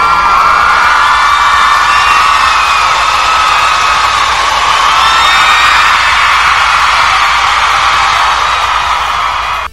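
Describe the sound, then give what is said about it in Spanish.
Loud, sustained shouting that sounds like excited cheering, one long continuous yell filling the whole clip at a steady, high level before cutting off at the very end. “Retírense tantito de su computadora porque voy a gritar.”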